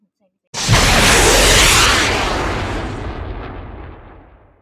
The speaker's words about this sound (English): Now, are you ready? 5, 4, 3, 2, 1, blast off!